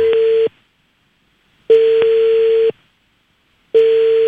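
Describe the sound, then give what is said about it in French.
Telephone call tone on a line to a municipal office: steady single-pitch beeps, each about a second long and separated by silence. Three are heard, with the first and last cut off. “du coup, on a chopé le numéro de la commune de Uccle, on va les appeler maintenant”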